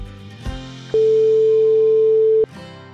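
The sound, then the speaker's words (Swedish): One long, steady ringback tone from an outgoing phone call rings once for about a second and a half after a short click, then cuts off abruptly over a faint low hum. “Och idag så ska jag ringa upp Vanessa Moreno.”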